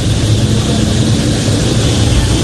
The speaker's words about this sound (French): Ça y est, les moteurs, on est en train de mettre les gaz dans les moteurs.